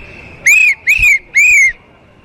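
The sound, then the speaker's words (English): Whistling from a man's throat at a Pride march: three short, high-pitched whistled notes, each arching slightly up then down, over faint background noise. “you seem to have a whistle in your throat.”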